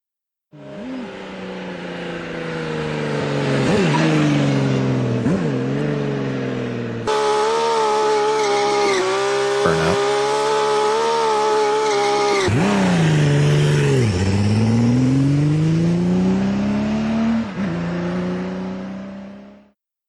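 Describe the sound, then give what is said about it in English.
A Kawasaki V12 2300cc motorcycle engine revs loudly and continuously, its pitch repeatedly climbing and dropping, with a sustained high-rev stretch in the middle before dipping and rising again. “And this bike just sounds crazy as well. Kawasaki V12, and I think this is 2300cc.”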